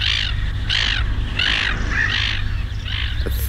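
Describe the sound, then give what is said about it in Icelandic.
Harsh caws from a crow-type bird, a species common locally that settled in the area about a century ago, several loud rasping calls spaced irregularly over a low steady hum. “Það er líka svo mikið af þessum fugli hérna.”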